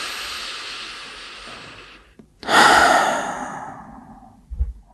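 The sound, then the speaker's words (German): Deep breathing in a guided relaxation exercise: a long, soft airy inhale, a brief pause, then a loud sighing exhale that slowly fades, followed by a faint low sound. “Als erstes nehmen wir mal 2 tiefe Atemzüge gemeinsam in diesem Moment.”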